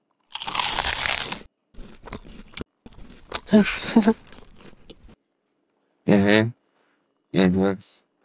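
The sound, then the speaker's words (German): Crunchy biting and chewing of cheese, with a few irregular bursts of crisp mouth noise, followed by two short vocal sounds. “Wir können auch einfach nur essen und nicht mehr reden.”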